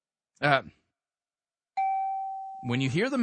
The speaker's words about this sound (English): Okay, so when you hear the mention bell,